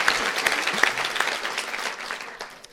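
Audience clapping in a lively burst of many hands, with a few sharper claps standing out early before the sound thins and gradually fades toward the end.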